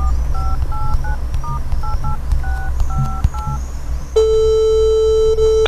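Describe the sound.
Touch-tone keypad beeps dial a phone call in a quick run of many short dual-pitched tones, then a steady continuous line tone holds to the end over a low background rumble.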